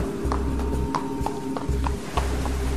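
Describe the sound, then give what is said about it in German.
Horse hooves clip-clop from a riderless black horse, reaching into a cave through a rock crevice. The hoofbeats fall in a steady rhythm of many sharp taps over a low sustained drone. “Da ist wieder das Pferd. Das Geräusch der Pferdehufe muss durch eine Felsspalte in die Höhle gedrungen sein.”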